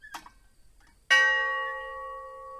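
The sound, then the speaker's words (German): A bell atop a chimney at a massacre memorial in Khatyn, Belarus, rings out with one sharp strike and a long, resonant, slowly fading hum, preceded by a faint, brief tap. “Glocken an ihrer Spitze läuten permanent.”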